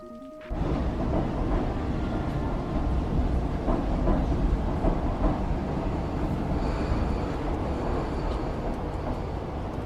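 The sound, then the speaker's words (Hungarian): A metro train starting up in a video game: a loud, steady, broad rumble kicks in abruptly after half a second and keeps rolling on evenly, with faint higher tones appearing toward the end. “Minden esetre elindítottuk a metrót. Iránya, fogalmam sincs, hova megyünk.”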